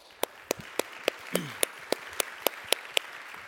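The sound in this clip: Hands clap in welcome for a guest in a church. About a dozen crisp, evenly spaced claps keep a steady rhythm at a soft level.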